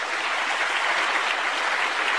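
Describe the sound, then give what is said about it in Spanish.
Applause from a church audience clapping for the Lord Jesus during a service, a dense, steady wash of many hands that stays even in loudness throughout, with no talking over it. “¿Quién vive? ¿Quién sana? Aplauso para el Señor Jesús. Aleluya.”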